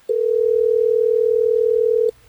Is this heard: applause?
no